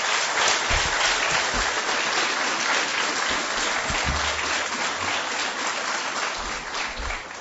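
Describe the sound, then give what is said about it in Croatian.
Audience applause at a book presentation honoring a war survivor: dense, steady clapping from many hands, continuous throughout and easing slightly toward the end. “Zamolit ću vas još jednim aplauzom, pozdravimo ovu hrabru ženu.”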